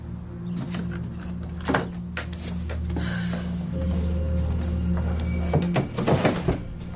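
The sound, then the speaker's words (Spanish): Drawers of a chest of drawers being pulled open, giving several wooden sliding and knocking sounds at uneven intervals with quieter stretches between them. “Abre los cajones de una cómoda, remueve la ropa y ve una pequeña caja blanca.”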